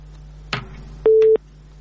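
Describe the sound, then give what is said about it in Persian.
Telephone busy tone after a call-in listener's call drops: a sharp click, then a single steady mid-pitched beep over a low constant hum. “تماس شنونده ما قطع شد.”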